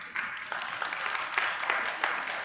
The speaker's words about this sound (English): It's not a very good clap, but we'll go with it.